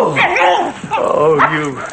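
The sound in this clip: A small dog yips and whimpers while being held up and out in front of a man as it urinates, giving high, wavering cries under a man's speaking voice.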